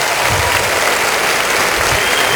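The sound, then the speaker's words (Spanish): Congregation applause at a church service, a full and steady roar of many hands clapping at once, even and loud from start to finish. “Ahora dele un aplauso con tus manos a Dios.”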